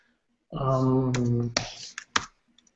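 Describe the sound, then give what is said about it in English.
A few sharp computer keyboard keystrokes while searching for text in an editor, clicking after a sustained buzzy tone and trailing off into fainter taps. “So you just type what you want to find.”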